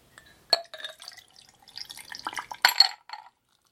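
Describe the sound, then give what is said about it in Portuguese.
Liquid splashes and drips as a large glass is tipped over and the drink spills past its rim, giving a few sharp wet splats and scattered patters with brief glassy clinks in between. “Nós temos a bebida que ultrapassou os limites do copo. Eu estou gravando ao vivo e eu não estou ensaiando porra nenhuma. Vamos ver aqui, ó. Ó. Tô virando o copo grande.”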